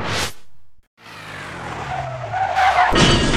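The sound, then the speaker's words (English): Car skidding outside a school's gates in the evening: tires squeal and the engine roars in a long, sustained smear of noise that builds and grows louder toward the end. “Oh dear! What's happened? You just driven into the gates, sir.”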